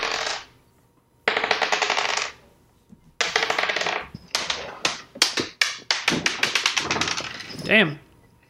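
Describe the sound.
Many dice being rolled in a tabletop role-playing game: repeated bursts of hard plastic clattering and rattling on a surface, loud and sharp. Later bursts are shorter and come in quicker succession.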